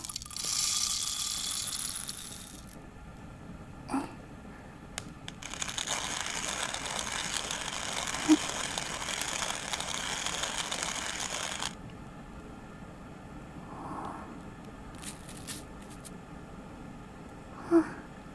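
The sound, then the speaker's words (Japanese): Coffee beans being ground give a dry, rasping crunch in two long stretches separated by a pause, followed by scattered faint clicks and knocks. “お湯が沸くのを待つ間にコーヒー豆をひいて、”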